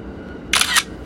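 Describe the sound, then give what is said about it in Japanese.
A camera shutter fires once to photograph the bench seating inside a commuter train car, a quick, bright two-part click-clack over faint, steady low background noise. “この状況ですね今写真撮っておきますね”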